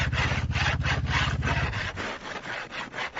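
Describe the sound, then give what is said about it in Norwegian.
A metal file smooths ski edges left rough by an angle grinder, making many rhythmic back-and-forth rasping strokes in a steady tempo. A low hum underneath stops about halfway through, and no one speaks. “Det blir litt sånn hakkete etter vinkelsliperen, så er det greit å gå med fil og så bare ta og så smoother ut så det blir litt glattere.”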